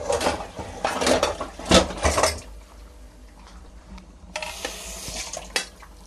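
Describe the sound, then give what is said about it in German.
A metal lid is set onto a cooking pot of vegetables in water, giving a few clanks and rattles, then a quieter pause and another brief clatter. “Und den Deckel da drauf. Hier ist er.”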